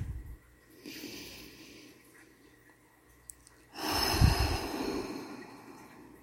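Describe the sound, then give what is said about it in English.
A deep breath: a soft, drawn-in inhale, then a pause, then a longer and much louder breathy exhale. “let's all take a deep breath.”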